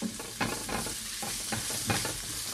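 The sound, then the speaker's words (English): Ingredients and ground turmeric sizzle in a frying pan while being stirred constantly. Repeated scraping strokes sound over a steady frying hiss. “So I'm just going to continue moving everything around that pan, never stop moving.”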